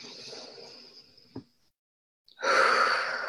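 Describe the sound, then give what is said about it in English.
A deep breath drawn in during a guided breathing and movement exercise, heard as a loud, airy inhale after a short silence and following softer breathy sounds. “Okay, take a deep breath in.”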